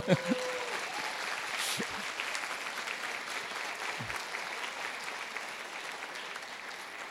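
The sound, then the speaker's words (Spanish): Sustained audience applause at a company business presentation, with a brief voice at the start, then broad, even clapping that holds at a moderate level throughout. “Tienen que aplaudir en esos casos,”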